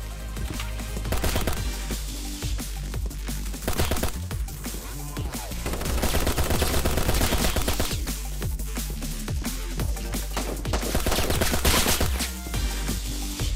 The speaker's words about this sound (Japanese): 壁抜きでヘッドショット